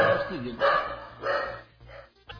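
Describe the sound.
A dog barks sharply when a guest arrives: a few loud, rough barks spaced roughly evenly, with a short yelp at the end, mixed with talking.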